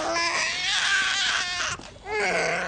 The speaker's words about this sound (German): Saga und John haben offenbar ein Schreikind zur Welt gebracht. Es hört und hört nicht auf.